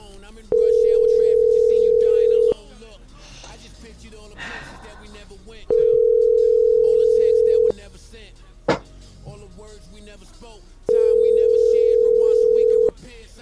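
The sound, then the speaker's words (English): Ringback tone of an outgoing call to a cell phone: three steady, mid-pitched electronic tones, each about two seconds long, evenly spaced by pauses of around three seconds, with a brief click in one gap. “I'm going to call Elena's cell phone just for the hell of it. I don't think she's going to pick up, but...”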